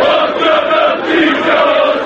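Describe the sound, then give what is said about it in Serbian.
Sports fans known as Alcatraz sing a chant in unison at a Partizan match, with Partizan basketball players joining in: a loud, sustained mass of voices holding a droning melodic line. “Otrovna si kao zmija, proći ćeš kod ćuruvija, pevaju navijači zvani Alcatraz, autorki Insajdera Brankice Stanković, a uglas sa njima i košarkaši Partizana”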